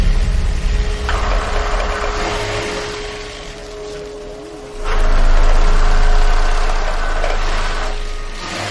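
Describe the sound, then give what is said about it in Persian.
Steady mechanical whirring of sewing machines running in a workroom where several women sew. A continuous, busy drone that jumps louder about halfway through, with no voices. “میره اتاقی که چند تا زن با چرخ خیاطی کار میکنن.”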